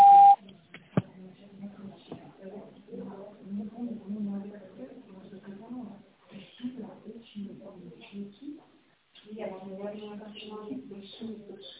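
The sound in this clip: An answering machine beep gives a single short, steady electronic tone at the very start. A voice then talks at length.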